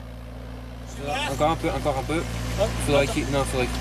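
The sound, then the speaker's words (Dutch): An excavator rumbles as it drives between rows of grapevines in a French vineyard where the vines are being uprooted. Its steady, low engine drone and idle hum run throughout while a voice talks over it. “We staan tussen lange rijen druivenstokken. Een graafmachine rijdt tussen de planten door. En die grote graafbak met tanden die verdwijnt in de aarde.”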